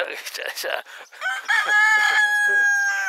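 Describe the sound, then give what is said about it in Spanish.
A rooster crowing: one loud, drawn-out crow that follows a brief moment of talk. “Sí, se ve que el gallo dijo,”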